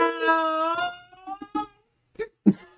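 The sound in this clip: A dog yawns and howls: a drawn-out, tonal whining howl comes first, then a few short, fainter yips and whimpers after a brief gap.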